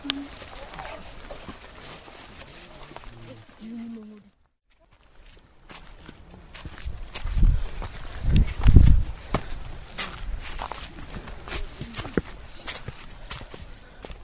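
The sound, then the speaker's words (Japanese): Footsteps of a group climbing a steep mountain path: steady crunching and rustling, a brief quiet gap, then heavier, louder thuds, with faint voices mixed in. “これまでの2カ所とは比べられないほどの傾斜を登っていきます。途中休憩も取りながら山道を登った先に最終地点、船沢観音があります。”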